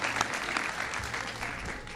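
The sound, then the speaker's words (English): Audience applause for the teachers: a thick, continuous burst of clapping from many hands, steady in loudness from start to finish. “So, all the teachers, raise your hands. Everybody give them a big round of applause.”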